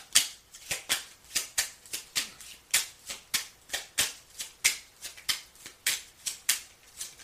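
Cards are shuffled for a zodiac card reading: a quiet, steady run of many crisp, papery snaps at an even, regular pace, with no voices.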